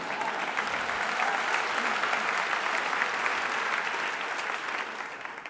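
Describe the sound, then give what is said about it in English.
A talk audience breaks into thick, continuous applause that stays steady and even for several seconds before easing off slightly at the close. “This unnamed movement, you can clap for that.”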